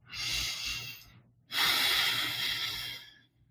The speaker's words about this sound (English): Take this moment and take a deep breath.